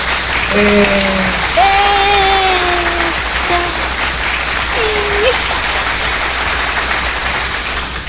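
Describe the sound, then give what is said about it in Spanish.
Applause sound effect: a steady, dense wash of clapping that runs unbroken for the whole clip at an even loudness. “les mandamos un aplauso, por supuesto”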